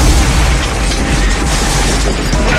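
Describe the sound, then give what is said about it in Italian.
A bomb blast in a pub in Guildford comes across as a loud, continuous roaring rumble, dense and heavy throughout, with no voices. “5 persone sono morte, 75 sono state gravemente ferite a causa della bomba fatta esplodere dall'ira senza preavviso nel pub di Guildford.”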